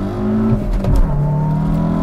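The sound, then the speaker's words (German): Car engine revving hard at full throttle as the clutch is released, from a car that sprints 0 to 100 km/h in 6.7 seconds and reaches 100 in second gear; a loud, steady, harmonic engine drone continues throughout. “So, ich gebe Vollgas. Kupplung kommen lassen.”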